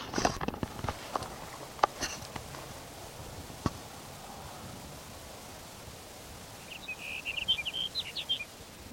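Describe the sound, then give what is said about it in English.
A sage sparrow sings a faint, short, high twittering phrase near the end. A few sharp clicks and taps come earlier over a soft, steady background hiss. “There's sage sparrow number two for the morning.”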